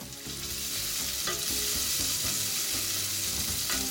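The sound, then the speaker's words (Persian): Sliced onion frying in a pan with salt and turmeric gives a loud, steady sizzle and crackle that runs throughout, broken by a few scraping stirs. “همونطور که میبینید پیاز ما یکم آب انداخته، من یک کوچولو بهش نمک اضافه میکنم. این نمک باعث میشه که پیاز سریع‌تر سرخ بشه.”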